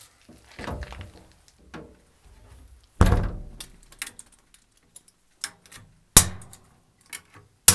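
A coal stove's metal door clanks shut after coal has been topped up: several sharp, irregular thunks and knocks, the loudest in the middle, with quiet gaps between them.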